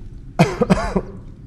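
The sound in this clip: A person coughs to clear a frog in the throat: one short, throaty cough with a few quick voiced pulses, then quiet.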